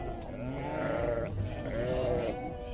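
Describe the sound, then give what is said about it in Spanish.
A flock of sheep bleating as a shepherd drives it across a bridge: wavering, nasal calls with quivering harmonics, long bleats overlapping one another at moderate loudness, with no talk. “un pastor que conducía su rebaño a través del puente vio sobre la arena un pequeño hueso blanco como la nieve”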